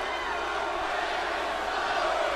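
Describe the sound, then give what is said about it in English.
A UK crowd at a WWE Raw wrestling show roaring and cheering, a dense, steady wash of noise held at an even level throughout. “By the way, this crowd on Raw, I love UK European phenomenal crowds.”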